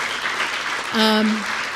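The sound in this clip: Audience applause, steady clapping from many people for about two seconds, with a brief voiced call rising over the clapping midway.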